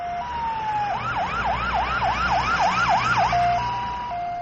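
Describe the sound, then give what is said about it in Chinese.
An ambulance siren wails loudly, starting on a steady tone before breaking into a run of rapid rising-and-falling swoops, then settling back to a steady tone. “救护车。”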